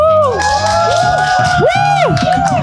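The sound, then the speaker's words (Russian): An audience cheering and whooping for the speakers at an evening talk event, with loud, overlapping shouts and rising and falling yells over a continuous crowd roar. “Ну и похлопаем нашим прекрасным спикерам сегодняшнего вечера.”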